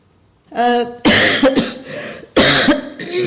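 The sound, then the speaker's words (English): Two loud, harsh coughs with raspy, rattling tails, each followed by rough breathy sound, come after a brief voiced sound at the start. “I'm sorry to cough in front of you”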